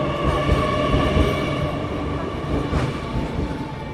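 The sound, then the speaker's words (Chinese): A high-speed train, the D7674 service from Haikou East to Haikou East in Hainan, rolls in at platform one with a steady, loud, broad rumble of wheels and motors that holds throughout. “由海口东开往海口东的动车七幺六七四列车停靠在一站台。”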